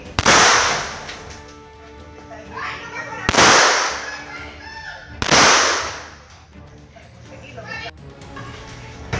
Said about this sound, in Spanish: Y sin pensarlo, disparó varias veces